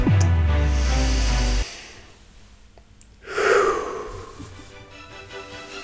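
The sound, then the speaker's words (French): A single deep breath drawn in, a loud breathy rush lasting about half a second. It comes after a low sustained tone cuts off abruptly, then fades into quiet. “Et pourquoi pas commencer tout ça avec une grande inspiration.”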